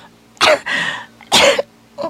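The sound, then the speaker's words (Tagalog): Harsh coughing from a persistent cough that will not let up: two strong, rough bursts followed by a shorter, fainter one near the end, with no talk. “Pila na nakahigayo na imong ubo. Murag wa na'y undang-undang na imong ubo.”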